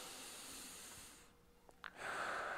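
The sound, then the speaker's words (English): A person demonstrates chest breathing, with soft airy breaths hissing in and out and a brief snort-like catch between them. No words are spoken. “For most people, the chest hand moves more because they're breathing like, let's see if I can get a little closer. They're breathing like this,”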